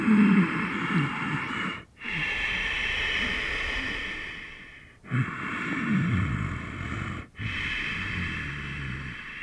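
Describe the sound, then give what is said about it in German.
Ujjayi throat breathing, a soft, hissing breath drawn through the nose with a narrowed throat on both inhale and exhale. Long, steady breaths follow one another, separated by brief silent pauses. “Ujjayi ist die Kehlatmung. Sie besteht daraus, dass du beim Ein- und beim Ausatmen einen sanften Klang erzeugst.”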